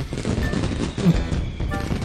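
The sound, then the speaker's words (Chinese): Fireworks lit and fired at close range at a person's face, heard as a dense, loud barrage of rapid popping and crackling bursts that runs without a break through the whole stretch. “他说完就按了点燃，只听嗖的一声，烟花怼上某人的脸，”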